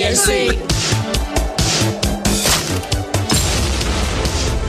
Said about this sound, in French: quelque chose qui explose